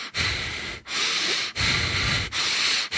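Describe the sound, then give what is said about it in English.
A voice imitates heavy, angry breathing: about four loud, rasping breaths, each drawn out and harsh, repeating in a steady rhythm with short dips between them. “all of a sudden, this guy is starting to breathe like...”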